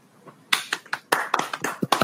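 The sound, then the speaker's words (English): Hand claps struck right next to a microphone: a quick, uneven run of many sharp, loud, dry smacks, starting with one faint clap and then a dense cluster in the second half. “I feel like clapping next to a microphone is very dangerous.”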